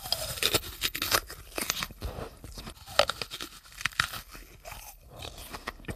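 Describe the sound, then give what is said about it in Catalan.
Crunching as someone bites and chews a fresh, juicy apple with the skin on, just picked from the tree. Loud, wet crunches and tearing bursts repeat throughout, with no talking. “Estic queixolant una poma amb pela i tot. Fresca i suculenta.”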